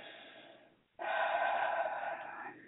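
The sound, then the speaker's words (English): A single deep breath drawn in during a spiritual affirmation exercise, a soft, airy rush lasting about a second and a half after a brief pause, fairly quiet. “Deep breath. Inhale.”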